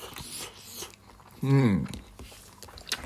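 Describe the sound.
Chewing and slurping of miso ramen noodles, soft moist bites with a brief hummed voice in the middle.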